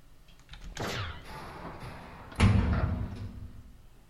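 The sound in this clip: A door is opened with a sweeping scrape and slide, followed a moment later by a heavy, low thud that rumbles briefly before fading.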